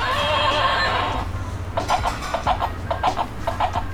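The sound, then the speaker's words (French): A toy rocking horse, white and brown with a wooden handle and wooden rockers, neighs when its ears are pressed. A long electronic whinny plays first, then a rhythmic run of clip-clop hoofbeats. “Je vais vous parler aujourd'hui d'un cheval à bascule qui est de couleur blanche et marron, poignée en bois, les bascules sont en bois. Il émet deux bruits différents en appuyant sur ses oreilles.”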